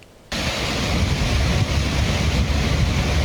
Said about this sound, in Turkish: Akşam saatlerinde aniden bastıran sağanak yağış hayatı olumsuz etkiledi. Kentin farklı noktalarında cadde ve sokaklar su altında kaldı.